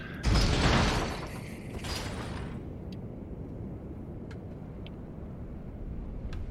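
Running elevator: a loud mechanical surge in the first second gives way to a steady, low rumbling hum that continues to the end.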